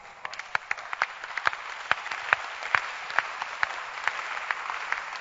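Scattered audience clapping at a conference, sharp irregular claps of moderate loudness rising and falling over several seconds, with no voices.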